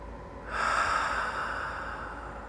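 A deep breath drawn in through the nose during a guided meditation: a steady, airy rush that starts abruptly and holds for about two seconds, easing slightly toward the end.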